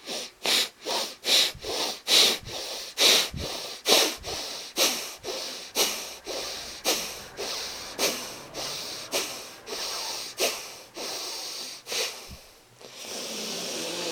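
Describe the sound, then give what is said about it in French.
Forceful exhalations are pushed through the left nostril, with the right one held closed, during a breathing exercise. Many sharp, even pulses of air repeat in a fast, steady rhythm with no voice. “Index et majeur entre les sourcils, fermez la narine droite. Expire tonique par la narine gauche, 12 fois.”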